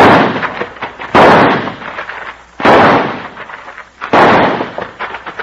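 Gunfire from a shootout, several loud sharp gunshot blasts spaced roughly evenly apart, each followed by a ringing tail and lower rumbling between the shots.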